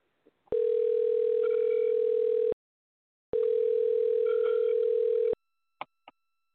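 Telephone tone after a disconnected call: two long, steady, mid-pitched tone bursts of about two seconds each, separated by a short silence and followed by a couple of faint clicks.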